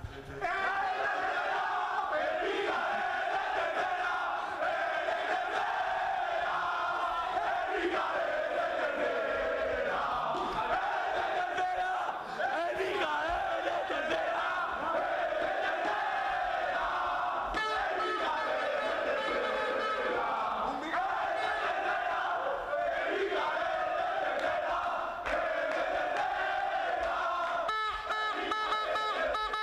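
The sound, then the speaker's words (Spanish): Football players celebrate in their dressing room, singing and shouting together in a raucous chorus. The loud group chanting and cheering goes on without letup, rising and falling in waves of voices. “Queremos que todos los oyentes de Onda Madrid sepan cómo suena la fiesta aquí en este vestuario.”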